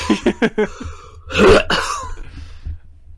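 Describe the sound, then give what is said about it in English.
A person clears their throat because something is caught in it. A few short, sharp coughs come first, then a longer, harsh rasping throat-clearing that trails off into quieter breathy sounds. “Oh my gosh, I have something caught in my throat.”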